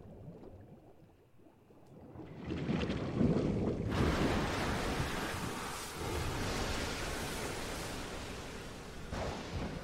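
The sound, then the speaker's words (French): Stormy sea waves crash in a video game scene of a hero clinging to rigging during a tempest. A broad, rushing roar swells after a couple of seconds, then stays loud and churning with wind-like noise. “La mer déferle. Notre héros s'accroche tant bien que mal au cordage. Mais la tempête fait rage.”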